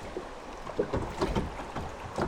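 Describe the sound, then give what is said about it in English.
Quiet river ambience on a summer afternoon on the Pine River in northern Michigan, a narrow winding stretch used by kayakers and canoers: a soft, steady rushing wash with irregular gentle water knocks and splashes, without talk. “On a typical quiet summertime afternoon, the Pine River sounds like this.”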